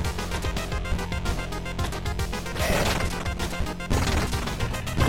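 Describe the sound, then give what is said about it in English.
Barrels smashing in a video game on Nintendo Switch: a couple of sharp, crunchy breaking bursts cut through loud, continuous game music. “Barrels in the next section. Can we break through that? There we go.”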